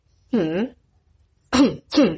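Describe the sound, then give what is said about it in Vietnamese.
Dry coughing and throat clearing: one rough throat-clearing cough, a pause, then two more in quick succession, each short and fairly loud. “Diệp Cẩn đứng phía sau ho khan 2 cái, Ôn Liễu Niên cũng ho khan 1 cái.”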